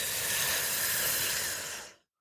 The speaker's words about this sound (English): I'm going to do the next one with you. Ready? Breathe in.